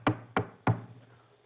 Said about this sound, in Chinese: 一敲门，咕隆咕隆，门开了